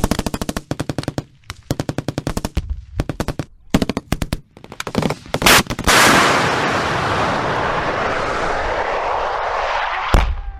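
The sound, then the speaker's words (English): Bombs dropping and exploding in a US Army airborne combat engagement, preceded by rapid, loud bursts of gunfire, then a heavy blast that leaves a long, roaring rumble, and another sharp blast near the end. “confirm that's bombs dropping on Man's Drac.”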